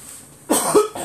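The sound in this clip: A person coughs and clears their throat, a few harsh, raspy bursts heard alone after a quiet moment.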